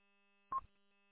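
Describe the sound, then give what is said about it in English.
A phone gives a single short electronic beep for an incoming call. The tone is brief and faint over a quiet, steady hum. “Oh, got a phone call. Be back.”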